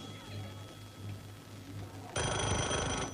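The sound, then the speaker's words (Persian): A telephone rings on a desk, its loud, bright ring bursting in abruptly near the end after a stretch of quiet, low murmuring. “تلفن روی میز صمیمی زنگ میخوره.”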